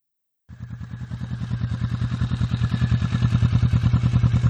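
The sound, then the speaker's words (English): A motorcycle fitted with an Arrow full racing exhaust system starts abruptly from silence, then idles with a rapid, steady train of deep thumping pulses that grows slightly louder. “Arrow Motorsports, I think is the name of the company. Or they're kind of known for their racing products, but this is a full system as well.”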